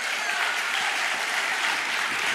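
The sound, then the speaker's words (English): An audience applauds during a sermon with thick, continuous clapping that stays steady and fairly loud throughout, without pauses or distinct individual claps. “Yeah, I'll clap for that.”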